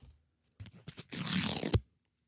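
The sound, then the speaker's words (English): Paper playing cards printed with flowers and smiley faces are torn up: light handling rustles lead into one sustained, crackling rip of about half a second that ends in a sharp snap, then silence. “please rip it up into the microphone. Ooh, that was really nice.”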